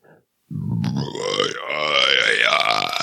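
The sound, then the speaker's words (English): A long, loud human burp, one drawn-out guttural belch lasting over two seconds with a rough, gurgling, wavering tone, heard alone after a brief faint sound at the start. “Sorry, that was Satan coming from my throat bowels.”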